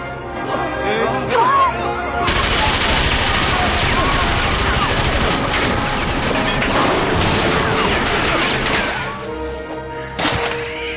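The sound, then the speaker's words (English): A Tommy gun fires in a loud, sustained burst of rapid shots running for about eight seconds, with a few isolated bangs before and after the main burst. “A Tommy gun!”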